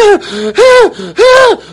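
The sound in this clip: A voice imitates rapid hyperventilating breathing: three loud, sharp, voiced gasping in-breaths in quick succession, with softer breaths between them.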